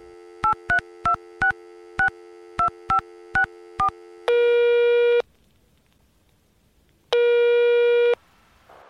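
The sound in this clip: Telephone voicemail tones: nine short two-note electronic beeps in a quick, slightly uneven rhythm, then two long, loud steady tones separated by a pause, with no talk.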